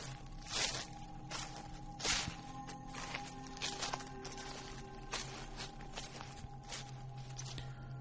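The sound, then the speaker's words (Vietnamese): Footsteps rustle and crunch over rotten branches and dead leaves in a steady, irregular series of soft, faint steps against a low, continuous background hum. “thì ở bên ngoài có tiếng bước chân dẫm lên cành lá mục loạt xoạt vang lên.”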